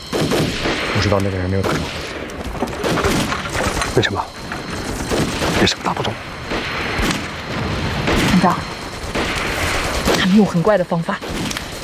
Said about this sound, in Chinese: 我们两个同时在土剧院后面开枪，然后还是你们两个一起开枪。